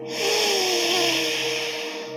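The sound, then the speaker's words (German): Slow inhalation through the left nostril during a yoga breathing exercise: a soft, airy hiss swells in early and holds steady for about two seconds over faint sustained tones. “Atme links aus. Atme links ein.”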